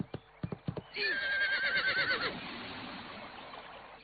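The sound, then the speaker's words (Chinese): A horse whinnies loudly for over a second after a few sharp hoof clops, as a rider urges it to leap across a broken bridge; the neigh trails off into quieter rustling. “只见他骑着马往后倒退了几步，再一使劲儿，扬鞭奋蹄，马直接跨了过去。”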